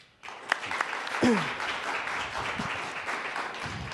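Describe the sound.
An audience applauds panelists as they are welcomed to a public debate. Dense, steady clapping starts abruptly and continues at an even, fairly loud level.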